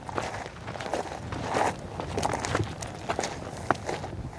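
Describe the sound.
Footsteps walking along a warm nature trail beside the cliff at Karlsmose Klint, many soft, irregular steps with scuffing and crunching over a constant low background rumble.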